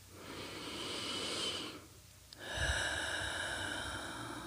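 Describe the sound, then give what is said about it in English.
Deep breathing during a grounding meditation: one long, soft, breathy inhale through the nose, a brief pause, then a long exhale out through the mouth. No talk is heard. “Let's take a couple of deep breaths. in through the nose and out through the mouth.”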